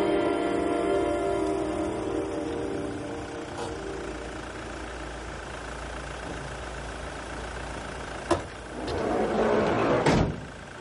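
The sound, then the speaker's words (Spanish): A taxi's engine idles steadily after pulling up on a city street, then a sharp click and a short burst of rustling and clunking noise near the end suggest its car door opening. “Al rato el taxi se detiene en una calle. El joven paga al taxista y abre la puerta del automóvil.”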